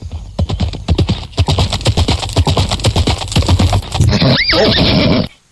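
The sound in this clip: Horses ridden out of town clip-clop in a loud, rapid run of hoofbeats, then a horse gives a loud rising-and-falling whinny near the end before the sound cuts off.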